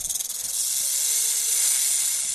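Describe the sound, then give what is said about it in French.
Hiss of a bushmaster (Lachesis muta), a large venomous snake, opening with a few short breathy pulses and then a continuous, airy, high hiss that holds steady to the end. “Voici un son de serpent Grage.”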